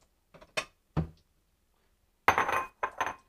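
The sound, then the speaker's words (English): Lettuce being shredded into a bowl with a shredder in a home kitchen. Short bursts of scraping and light clatter come in a few quick strokes, followed by a longer scraping run and two more brief strokes. “I'm going to get a shredder. I'm going to grab a bowl, and I'm just going to shred the lettuce.”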